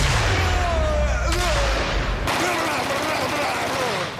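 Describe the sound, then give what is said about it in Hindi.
Gunfire rings out in a Hindi action-comedy film scene as one character fires a gun at another, a dense burst of shots running through the whole stretch alongside voices. “एक जगह सुनील शेट्टी अक्षय कुमार पर gun चलाते हैं और फिर पूछते हैं तू मरता क्यों नहीं।”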